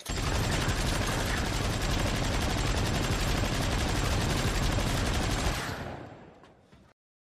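A gun fires in a sustained rapid burst of loud, dense cracks that run on steadily for about six seconds before fading out.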